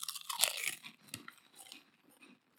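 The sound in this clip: Crunching on shrimp-flavored flakes: crisp, loud crunching bites at the start settle into steadier, softer chewing, heard alone without talk.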